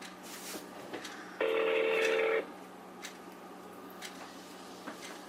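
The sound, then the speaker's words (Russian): A telephone call is being placed again to the same number, giving a single steady ringing tone of about one second. Before and after it, faint clicks sit over a quiet background hiss. “Набираем еще раз. Этот же номер.”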